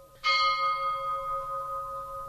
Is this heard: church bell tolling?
yes